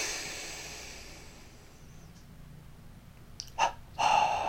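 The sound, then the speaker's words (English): A deep breath drawn in through the nose during a guided relaxation exercise that tenses the whole body. After a quiet stretch, a short sniff is followed by a longer, louder rushing inhale at the end. “One more time, inhale and tense.”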